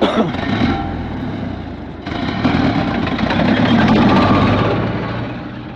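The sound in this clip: A military vehicle's engine runs as three soldiers climb back in and drive off: a steady, loud, rough rumble that continues throughout, with a brief dip partway and slightly louder running afterwards.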